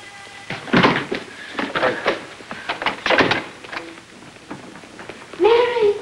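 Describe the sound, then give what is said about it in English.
A door opening to a room at the end of a dark corridor: several knocks, thumps and hurried steps, and a brief voice calls out at the end. “Farther down the hall, Mary opens the door to a room and ducks inside.”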